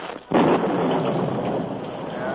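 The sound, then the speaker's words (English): A sudden thunderstorm breaking: a loud, rumbling roar of thunder with a hiss of rain bursts in abruptly after a brief quieter moment and holds steady. “As he rode, a sudden storm broke.”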